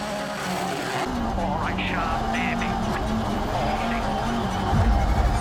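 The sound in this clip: A race car engine drones through the final sector of a timed run while commentators talk over it.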